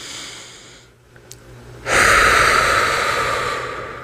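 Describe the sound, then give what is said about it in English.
Deep breathing during a guided breathing exercise: after a quiet opening, one long, airy breath starts midway and holds loud and steady through to the end. “Take a few moments to”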